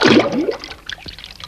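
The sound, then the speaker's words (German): Water splashes as someone lets himself slide down a narrow shaft into it. A loud rushing surge comes first, then fades into softer trickling and lapping. “Als er das Wasser an seinen Füßen spürte, holte er tief Luft und ließ sich hinuntergleiten.”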